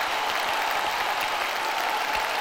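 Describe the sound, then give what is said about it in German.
Applause from a soundpad's built-in sound effect: a steady, dense wash of clapping that holds at an even loudness throughout. “Das Soundpad bietet bereits ab Werk 6 Effektsounds an. Zum Beispiel, wenn eine Quizfrage kommt, wenn die richtig beantwortet wurde, wenn sie falsch beantwortet wurde und natürlich auch Applaus”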